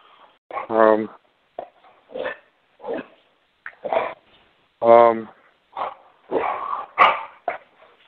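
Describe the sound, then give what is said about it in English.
A dog plays roughly, tugging at a person's pants and making many short barks and grunting yips. The bursts come in an irregular rhythm, some voiced and harmonic, with quiet gaps between them. “That's the dog, man. He's trying to play with me. I'm trying to get him away from me, and he won't leave me alone. He keeps pulling my pants down.”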